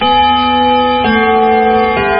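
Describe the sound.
A radio station's time-check chime marks exactly 4 pm with a short sequence of sustained, bell-like electronic tones, loud and alone.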